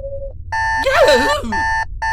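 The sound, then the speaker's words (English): A wristwatch alarm beeps in short, bright electronic tones with steady pitch, repeating in bursts. A louder warbling vocal sound breaks in over the middle of the beeping. “A wristwatch alarm.”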